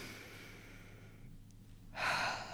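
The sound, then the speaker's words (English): One deep breath, a soft, airy rush of air near the end after a quiet, steady lull, with no talk. “the first thing anyone will tell you is just, let's take a deep breath, right?”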